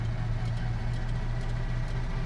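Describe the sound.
Low, steady rumble of a car engine running at low revs, a car said to jerk when revs drop; the drone stays fairly even and unbroken through the short stretch.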